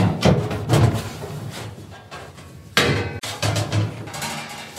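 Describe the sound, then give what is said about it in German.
Metallic clattering and thuds as an oven door is opened and trays of cookies go into the preheated oven: several loud bursts of clanking, with a sharp clank partway through, and no talking. “Die Plätzchen kommen in den Ofen. Er ist schon vorgeheizt. Ich mache ihn auf.”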